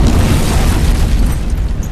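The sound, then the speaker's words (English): Explosion of a ship struck by an enemy heavy gun in battle: a loud, dense roaring rumble, heavy in the low end, that sustains without a break for the whole clip, with no voices. “Anakin's ship, and it exploded in a brilliant cascade of flame”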